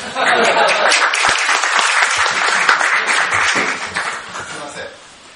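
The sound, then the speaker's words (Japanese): Audience applause at the opening of a gathering held at a Buddhist temple: dense, loud clapping holds steady for several seconds, then fades out, with voices mixed in. “拍手”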